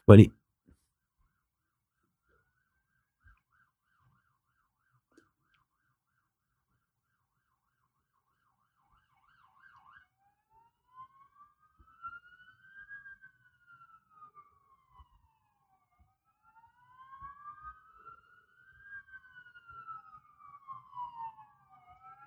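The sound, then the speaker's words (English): Fire engine sirens as three fire engines arrive outside: a faint wail slowly rising and falling in pitch, beginning partway through and repeating to the end, after a single sharp knock at the very start. “there's been a bit of a cut there because fucking three fire engines just turned up outside and all firemen getting out with their helmets on and hoses and stuff”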